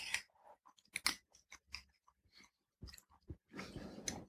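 Moist chewing and biting of bread soaked in maple syrup and dusted with cinnamon. A series of irregular, crunchy bites and chews is followed by a longer, denser burst of chewing at the end, with no talk.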